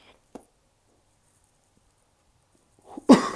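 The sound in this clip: A single harsh cough bursts out near the end after vaping an e-cigarette whose coil was not filled enough. It is preceded by near silence and one faint click.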